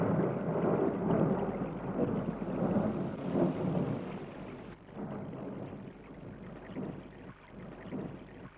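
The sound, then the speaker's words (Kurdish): Rain falling in an animated cartoon, a steady hiss of downpour swelling and easing in waves, with low rumbles beneath it. “پێویستە بەلە بکەیت چونکە ئێستا باران دەبارێت”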